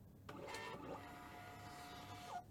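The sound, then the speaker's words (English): A Dymo label printer prints a label with a steady mechanical whir that starts abruptly and runs for about two seconds, ending in a brief, higher-pitched squeal, with no voices. “Okay, let's print something.”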